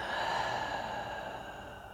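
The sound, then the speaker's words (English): A deep, slow breath during a guided exercise of breathing in through the nose and out through the mouth, heard alone as a soft, airy rush that tapers off gradually. “take a deep breath in through the nose and let it out through your mouth.”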